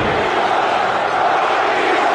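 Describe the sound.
A loud crowd of fans yelling at a Battle Hawks game, heard as a constant, dense roar of many voices that holds at an even level throughout.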